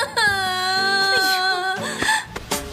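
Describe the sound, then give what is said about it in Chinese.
A woman crying: a long, wavering, high-pitched wail followed by shorter broken sobbing sounds, loud and close. “您别哭了”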